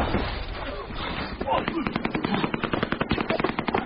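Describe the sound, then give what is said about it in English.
Heavy gunfire in a combat firefight: dense, loud noise that breaks into rapid, evenly spaced automatic bursts of sharp cracks, growing more rhythmic and insistent through the second half. “We are under heavy fire!”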